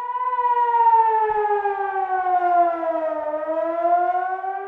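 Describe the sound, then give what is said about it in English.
An air-raid siren in Jerusalem warns residents to rush to bomb shelters, sounding a loud, continuous wail whose pitch sags slowly and lifts slightly near the end, with no voices over it. “When residents in Jerusalem hear this, they know they must rush to bomb shelters too.”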